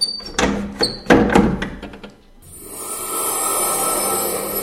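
A window is closed with scraping, rubbing slides and a few knocks of the frame, followed by a steady, broad hiss.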